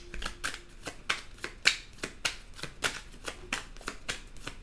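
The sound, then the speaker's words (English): Tarot cards rustle and snap as one is drawn from a deck, in many crisp, quick, fairly quiet bursts at an uneven rhythm, with no talk. “Let me take a card. From the Under the Roses deck.”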